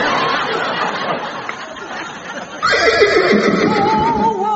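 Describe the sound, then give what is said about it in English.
A unicorn's horse-like neigh in a comic scene on an island: a loud, wavering whinny with a shaky, quavering pitch that breaks in abruptly about halfway through, after a stretch of murky, noisy background. “It is a unicorn, the very last of his breed.”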